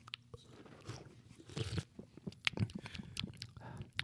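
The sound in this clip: Crisp, quiet crunching and chewing as someone bites into and tastes food in an ASMR style, with many irregular crunches and no talking.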